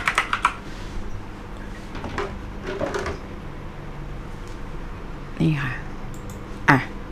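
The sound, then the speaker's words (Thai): Typing a password on a computer keyboard to open a newspaper page: short bursts of quick, light key clicks come in a few scattered clusters, with a voice briefly heard near the end. “หนังสือพิมพ์ไทยรัฐต้องใส่รหัสก่อนถึงจะดูได้”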